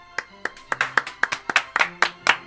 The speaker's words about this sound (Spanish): Así que nada, bueno, vamos a despedir con un gran aplauso al amigo Chigrinsky.